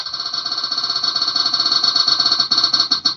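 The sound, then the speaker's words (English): A prize wheel spinning, giving a rapid, steady ticking whir with a bright ringing tone that runs throughout. The ticks space out slightly near the end. No talk is heard. “So I'm going to spin the wheel”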